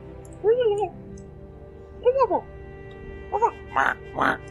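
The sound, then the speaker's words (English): A human voice imitates weird animal noises, including a meow, in several short warbling cries with bending pitch and pauses between them. The later calls come quicker and breathier. “start to hear some very weird noises. You hear like a”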